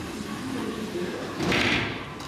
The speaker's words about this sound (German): schiebt die Tür zu einem der Kreissäle auf.